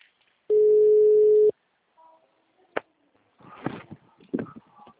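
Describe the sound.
A steady telephone tone holds for about a second before a call, then stops. A sharp click and some brief, indistinct sounds follow.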